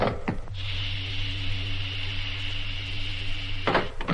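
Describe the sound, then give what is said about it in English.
A spacecraft cabin hatch opens once air pressure reaches maximum: a short clunk, then about three seconds of steady mechanical droning hum with a thin high hiss, closed by another brief clunk. “Air pressure maximum. Opening cabin hatch.”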